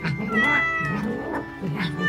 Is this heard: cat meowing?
yes